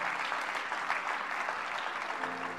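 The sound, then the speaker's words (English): A church audience claps along during worship, producing dense, continuous applause with an even, steady texture from start to finish at a fairly faint level. “Oh, clap your hands unto the Lord.”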